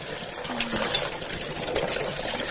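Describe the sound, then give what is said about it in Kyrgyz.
Water is drawn with a hand pump, or kachalka, used for drinking water that comes out yellowish and unclean. A steady, fairly quiet rush of flowing water runs without clear breaks. “Ушундай качайт эти ичебиз сууну. Мурун арыктан колдончубуз да, азыр ушул качалка менен колдонобуз.”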